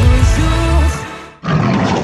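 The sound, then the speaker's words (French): A panther gives a loud, deep, rough roar lasting just over a second. After a brief silence a second loud, noisy burst follows. “Dulux Valentine fait rugir sa panthère”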